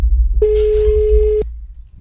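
A telephone line rings while the caller waits for someone to pick up: one steady, mid-pitched ringback tone lasts about a second over a low, rumbling background.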